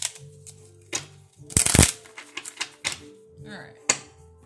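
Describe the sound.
Tarot cards are shuffled: a dense, loud riffling burst in the middle, with scattered softer card snaps and taps before and after it.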